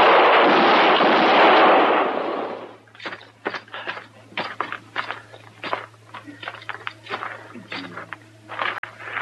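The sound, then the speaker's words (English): Gunfire in a western radio drama shootout opens with a loud burst of noise lasting a couple of seconds. Many quicker, quieter knocks and scuffs follow over a low steady hum. “Troy didn't even shoot, Mr. Dillon. No, but he got hit.”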